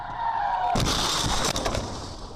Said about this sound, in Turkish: İşte İstanbul Ümraniye'deki ilk kaza anı. iki araç çarpıştı, biri çocuk, iki kişi yaralandı.